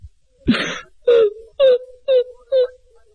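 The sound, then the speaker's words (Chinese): A voice imitates a woman crying and wailing in a storytelling performance: a rising sob, then four short, evenly spaced moaning wails, loud and alone. “说着潘金莲又哭了。潘金莲这一哭，这武大郎心里边就受不了了”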